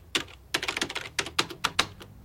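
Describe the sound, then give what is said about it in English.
Someone types on a word processor keyboard at a desk. Many crisp, clicky keystrokes come in quick, uneven bursts with short pauses between them, clear and alone with no talk. “Jack smokes as he types the words, "The ball."”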